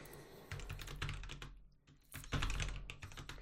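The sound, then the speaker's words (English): Typing on a computer keyboard: many quick, faint plastic key clicks in an irregular rhythm, with a short lull in the middle before the tapping picks up again. No one speaks. “This is watching people type now.”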